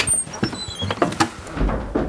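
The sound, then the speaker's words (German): The door of a small hut is opened in minus 20 degree cold, giving a loud clatter of knocks, scrapes and brief squeaks that comes in several uneven bursts. “Deshalb zögern wir nicht lange, öffnen die Tür und betreten den dunklen Raum.”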